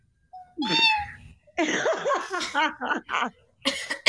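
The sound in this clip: A person imitates a cat meowing with their voice, producing several strained, drawn-out meows with bending pitch. Harsh throaty bursts come between them, and a few choppy vocal sounds close the sequence.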